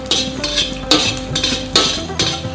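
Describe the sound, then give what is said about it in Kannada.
Dried Byadgi and Guntur chillies stirred in a hot pan, giving a run of dry, crisp scraping rustles in a loose, repeating rhythm with several strokes in a row. “ನೋಡಿ, ಮೆಣಸಿನ್ಕಾಯಿ ಹಾಕಿ ಸುಮಾರು ಹೊತ್ತು ಬಿಸಿ ಮಾಡೋದು ಬೇಕಾಗಿಲ್ಲ, ಸುಮ್ಮನೆ ಒಂದು 2 ಸಲ ಹಿಂಗೆ ತಿರುಗಿಸಿದ್ರೆ ಸಾಕು.”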